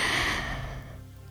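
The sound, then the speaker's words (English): A slow exhale during a box-breathing relaxation exercise at bedtime: a single soft, breathy rush that starts full and gradually fades over about a second, heard alone without speech. “Breathe in, hold it in for 3 seconds. Breathe out.”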